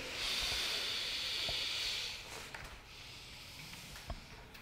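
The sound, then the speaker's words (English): A slow, steady, breathy hiss of air exhaled through the throat during yoga breathing with the chin drawn toward the collarbone, lasting about two seconds before fading to near silence with a few faint clicks. “hissing sound. You should hear the air coming out. Slow exhale”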